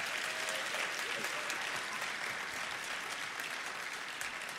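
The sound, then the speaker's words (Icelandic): Applause at a music competition's award ceremony after a tribute to the event's first sound engineer. It is a steady, dense wash of clapping from a crowd, sustained without a break for the whole stretch. “En það má klappa fyrir því.”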